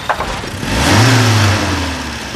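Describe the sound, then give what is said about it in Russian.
Car engine running while stuck in second gear with an overheated starter: a low, even hum that swells louder through the middle and then eases slightly, with no talk. “Сэр, заглушите двигатель.”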